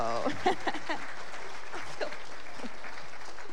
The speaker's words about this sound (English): let's get you over here with your buddies, and y'all give him a round of applause